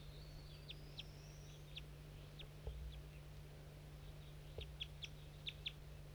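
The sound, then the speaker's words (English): Faint, short, high chirps from wild birds in a cotton field, several scattered calls coming in small clusters over a steady low hum. “Start recording 8 birds in the cotton. These are the wild ones.”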